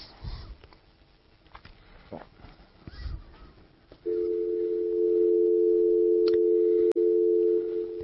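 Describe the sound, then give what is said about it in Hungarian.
Partway through, a steady telephone dial tone sounds while a call is being placed. The loud, continuous hum holds to the end with one brief click, after faint rustling and shuffling before it. “Jó, akkor én most hívom őt.”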